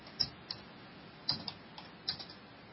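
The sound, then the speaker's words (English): Typing on a computer keyboard: a few faint, scattered keystroke clicks in short bursts with brief pauses between them, alone and without talk. “Let me type this in here real quick.”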